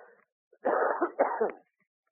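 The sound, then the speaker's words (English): A cough in two close, fairly loud bursts, followed by silence. “I'm going to cough. Excuse me for a minute.”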